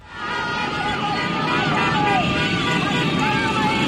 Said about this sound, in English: That is the sound of dozens of cars and motorbikes full of demonstrators waving giant flags and banners in support of Ms. Machado.